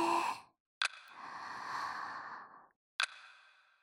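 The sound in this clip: One slow, deep breath during a guided breathing exercise: a long airy rush lasting about two seconds, framed by short soft clicks before and after.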